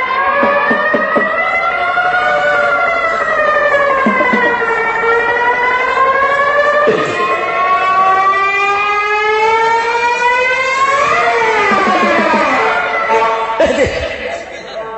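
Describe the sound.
A police siren wails loudly and continuously, its pitch sweeping up and down in long, repeated rises and falls with a few brief breaks.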